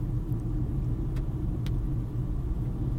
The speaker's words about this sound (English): I'm a couple hours in to my 8.5-hour drive home today.